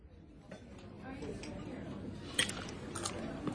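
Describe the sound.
Soft chewing and mouth sounds of someone eating linguine, faint and uneven, with murmuring voices in the background.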